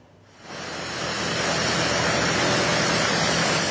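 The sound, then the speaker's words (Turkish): Steady rushing surf and breeze at Güneş beach in Florya, Istanbul, swell up from near quiet within the first second into a dense, even roar. “Yani güneşin o sıcağı, kavurucu sıcaktan kurtulmak için kendilerini attıkları plajlardan birindeyiz. Florya'dayız.”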